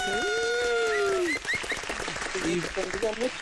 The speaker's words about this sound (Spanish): Un aplauso a todos a Lourdesita, por favor.